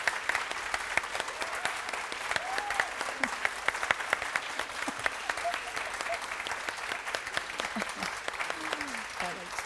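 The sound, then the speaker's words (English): A warm round of applause at a School of Art and Design event honouring a former student, with many hands clapping in a steady, crackling stream throughout and a voice faintly heard underneath. “So let's have a very warm Round of applause for Sean.”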